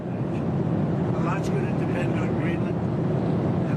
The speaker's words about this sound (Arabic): معذرة، الصوت مشوش جدا في الطائرة.